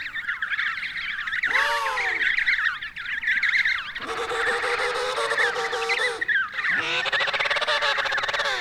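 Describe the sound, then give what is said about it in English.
Penguin chicks and adults call back and forth in an Antarctic colony, with loud, harsh, harmonic braying cries that bend in pitch and overlap one another in several long bursts. “The seal and penguin colonies are really active at this time of year. The penguin chicks are calling to the adults, who are replying. Let's listen in.”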